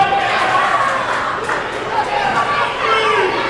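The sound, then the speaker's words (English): A wrestling crowd goes wild after a wrestler dives over the top rope with a plancha. A loud, constant roar of cheering and yelling voices, with babble and shouts running through it. “Oh my God! Over the top rope! with a plancha. Crazy. The crowd is going bananas right now.”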